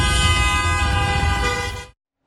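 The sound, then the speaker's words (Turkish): A car horn blares in stopped traffic as drivers honk in protest, one loud, steady blast of about two seconds that cuts off abruptly into silence. “Bazı sürücüler de korna çalarak tepki gösterdi.”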